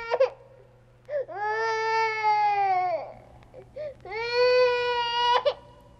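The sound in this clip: A toddler between one and three years old cries in a tantrum: two long, loud, high wails, with short sobbing whimpers before and between them.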